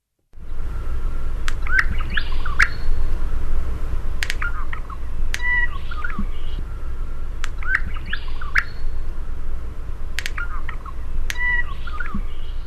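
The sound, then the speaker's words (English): Honeyeater song with bill snaps: short warbled, guttural notes come in repeated phrases, punctuated by many sharp, crisp snaps, all set over a steady low hiss and rumble. “it's kind of like a mix of like a real strange little warbly, almost turkey-like kind of, it includes bill snaps and it's just kind of like a bit of a crescendo of a guttural warble.”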